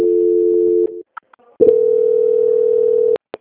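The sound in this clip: A telephone tone sounds during a call transfer. A steady low electronic tone lasts under a second, a short break with faint clicks follows, then a longer steady tone of about one and a half seconds cuts off abruptly.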